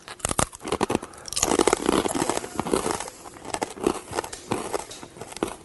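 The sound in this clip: Crisp beet vegetable chips crunch and crackle as they are bitten and chewed: many sharp, dry snaps come in an uneven rhythm and grow denser and louder in the middle before continuing in quicker bursts, with no talking.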